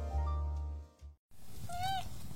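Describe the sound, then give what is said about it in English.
A kitten meows once, a short, bright, bending cry that follows a brief low sustained tone and a moment of silence. “When Maddie got her new kitten, Socks, she had expectations of cosy nights in, with Socks snuggled up on her lap, happily purring away.”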